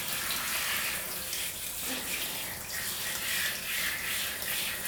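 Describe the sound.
Running water rinses skin after an akasuri scrub, a soft, continuous splashing hiss that stays fairly quiet and steady.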